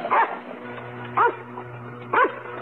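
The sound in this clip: A small dog barks three times, each bark short, sharp and loud, spaced about a second apart with quiet gaps between them.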